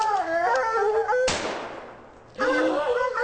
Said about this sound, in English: And he is shooting the bear up in the tree.